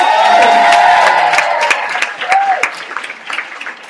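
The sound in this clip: Loud applause and cheering from an audience welcoming event organisers onto a stage, a dense continuous wash of clapping that stays strong throughout and eases slightly toward the end.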